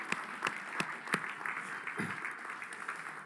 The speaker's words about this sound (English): If you're visiting, just put your hand up if this is your first time this morning. Yeah, give these people a hand.